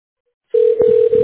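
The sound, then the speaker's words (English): Telephone ringing tone as a call is put through to reception: one steady, loud, sustained tone starting abruptly after a brief silence and holding evenly to the end. “Thank you for calling CLA. We're ringing you through to reception.”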